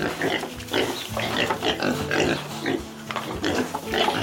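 Sows and piglets in a pigsty pen, the piglets leaving their nests to suckle from their mothers: many overlapping grunts and higher squeals form a busy, continuous chorus of pig sounds.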